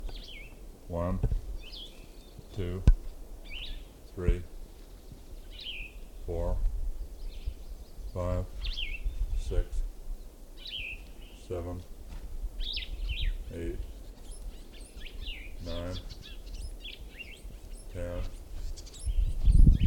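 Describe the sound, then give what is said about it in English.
Short, high bird chirps come in brief bursts at irregular intervals, faint and set over low, intermittent thumps and rumble. “Another bird in the background.”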